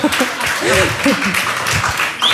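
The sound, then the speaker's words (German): Short burst of applause used as a sound effect, a light patter of clapping mixed under a man's talking voice, with a brief bright tone near the end. “Wir können ja Lilith auch mal einen kleinen Beifall spielen.”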